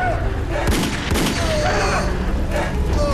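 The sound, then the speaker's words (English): A few sharp gunshots fired wildly during a struggle in a dramatized scene, irregular bursts set against a dense, noisy background. “He stumbles, shooting wildly.”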